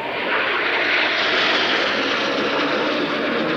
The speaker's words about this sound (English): So now you've got the front section of five aircraft.